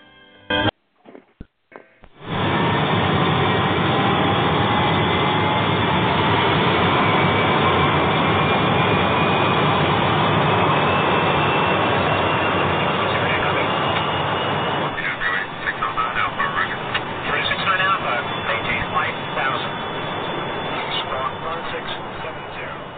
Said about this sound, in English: how about getting the episode in the air with a new Eastern airplane, the Boeing 727-200.